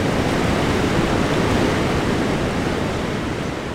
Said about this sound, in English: white water is churning, sending an ominous roar up the narrow sandstone walls.